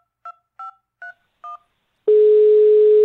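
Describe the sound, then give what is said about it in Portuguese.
Dialing tones of an outgoing telephone call: four short, evenly spaced beeps, then a steady, unbroken tone that holds to the end. “Eu vou ligar para Raeli Cardoso”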